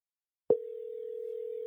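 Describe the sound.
Steady single-pitch ringing tone of an outgoing phone call starts after a brief silence and holds evenly at a mid pitch to the end, with no voices.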